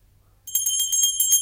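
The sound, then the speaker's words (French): A small hand bell is rung to summon servants. After a moment of near silence it breaks into bright, high, shimmering rings, shaken in many quick strokes that continue steadily to the end. “Bah, ils n'entendent point et ma sonnette ne fait pas assez de bruit.”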